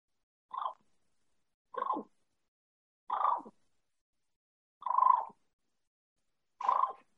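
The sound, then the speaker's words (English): A person imitates a turkey's cluck and purr call: five short raspy bursts, evenly spaced and fairly loud, alone against silence. “I'm just going to do a cluck and purr.”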